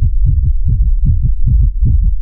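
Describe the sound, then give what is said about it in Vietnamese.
A rapid heartbeat sound effect of many deep, muffled thumps pulsing in a quick, steady rhythm throughout, loud and low-pitched with no voices. “Lại một trận tiếng tim dồn dập truyền đến, chiếc chìa khóa màu máu này dường như hô ứng với chìa lúc trước, cả hai bắt đầu cùng đập như trái tim.”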